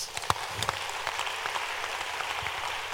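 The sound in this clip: Congregation clapping during a church sermon: a dense, fairly faint patter of many hands that runs steadily throughout, with a few sharper claps standing out near the start.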